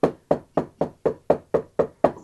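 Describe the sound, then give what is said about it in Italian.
Knocking on a door: nine sharp, evenly spaced raps in a quick, steady rhythm, each with a short hollow ring, heard alone. “Gesù sta alla porta del tuo cuore, sta bussando e sta dicendo: Luca, Luca, mi senti?”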